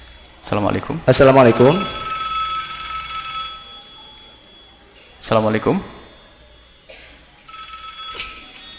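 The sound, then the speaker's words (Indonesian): A telephone rings with an incoming call, giving two spells of bright, sustained bell-like tone separated by a quieter gap. Short bursts of talk come just before each spell of ringing. “nampaknya sudah ada telepon yang masuk”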